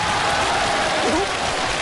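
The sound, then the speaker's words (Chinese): Dense, steady applause from the audience at a crosstalk comedy show. It forms a continuous, even wash of clapping at a constant loud level throughout. “来，您各位给我点热烈的掌声好吗？”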